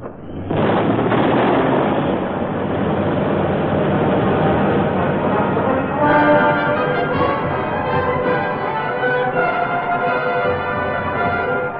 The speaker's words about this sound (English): And so they drove past, and one of them threw a grenade into the front room. Blew it to smithereens.